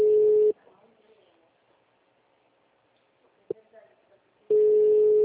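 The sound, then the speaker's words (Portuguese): Ringback tone of an unanswered phone call to Flora Rica: two steady, pitched beeps separated by a long near-silent gap with a faint click. “Tô tentando ligar aqui em Flora Rica e eu já ligo lá. Não atende.”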